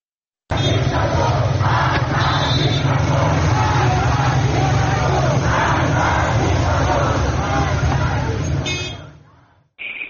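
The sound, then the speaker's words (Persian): A loud, dense crowd din with shouting voices fills a students' protest march and gathering on Qasr-e Dasht street in Tehran. It holds steady throughout, then fades out, cuts off briefly and returns for a moment at the end. “روز گذشته 3 مدرسه محمد در خیابان قصردشت تهران دست به راهپیمایی و تجمع زدن. اگر صداش آماده باشه میتونیم با هم بشنویم.”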